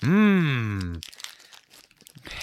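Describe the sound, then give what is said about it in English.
Crinkling and tearing of a plastic Oreo package of turkey-and-stuffing flavour as a corner is pierced open, a rough, irregular crackle following a loud drawn-out vocal exclamation. “Oh my God, I just pierced the slightest corner of the package.”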